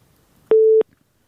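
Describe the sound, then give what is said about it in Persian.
A single busy-tone beep follows a dropped phone call from a listener: one short, steady mid-pitched tone, alone on an otherwise quiet line. “متاسفانه تماس ما قطع شد با شنونده عزیز.”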